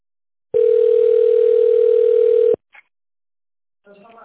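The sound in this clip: A telephone line tone plays while a caller waits for an operator after tone dialing a company's number. It is a loud, steady single pitch held for about two seconds and cuts off abruptly, followed by a brief faint blip.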